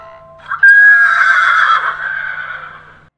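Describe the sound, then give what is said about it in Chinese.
A horse neighs once in a long, high, bright whinny that wavers and slowly fades, loud and alone, accompanied by a faint low hum. “蜘蛛没有回答他，因为他正忙着织网呢。马儿转身离开去兜风了。”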